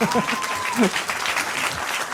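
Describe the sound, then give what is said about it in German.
Audience applause at a live game show, a dense, loud wash of clapping that swells at the start and again near the middle and keeps a steady roar throughout, with a voice briefly audible over it. “Das ist nochmal euer Applaus, wollte ich sagen.”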